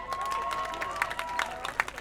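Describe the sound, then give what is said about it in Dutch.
A crowd at a demonstration against racism and fascism gives warm applause to welcome a speaker: scattered clapping with a few sharper claps and some crowd noise, fairly faint. “Mag ik een warm applaus alsjeblieft?”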